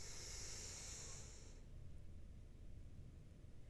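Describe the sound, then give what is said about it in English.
Deep inhale through the nose during a guided relaxation breathing exercise: a steady, airy hiss lasts about a second and a half, then drops to a soft, low rush of breath. “Take our tongue from the roof of our mouth and breathe deep into our belly. In through the nose”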